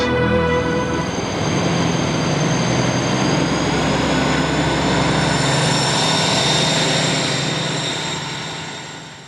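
A train arriving, a loud sustained rumbling roar with a high whining tone that shifts slightly before fading out at the end.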